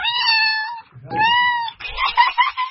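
A cat meows twice in long, clear, steady cries. A shorter, rougher, more broken vocal burst follows.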